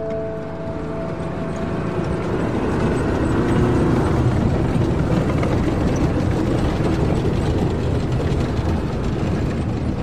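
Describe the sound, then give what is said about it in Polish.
A tank drives past a car parked in a supermarket lot, giving a heavy, steady mechanical rumble laced with clattering, ratchet-like rattles that swell slightly and then hold loud for about ten seconds. “Czołg jedzie i mija samochód Nikodema zaparkowany na parkingu przy sklepie Carrefour”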